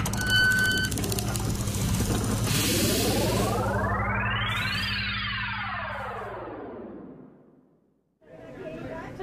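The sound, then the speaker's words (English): A giant troll time machine powers up with a low, engine-like rumble under layered electronic tones that sweep up in pitch, then glide back down. The rumble fades and cuts off before a brief burst of noise. “Check it out! Another giant troll time machine.”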